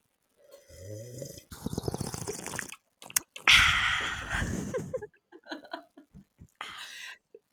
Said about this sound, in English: I'm sipping on mine now and so are you.